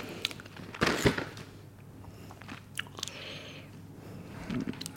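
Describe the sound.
Crunchy biting into a piece of Christmas chocolate, one loud crisp bite early on, followed by softer, irregular chewing noises with no talking.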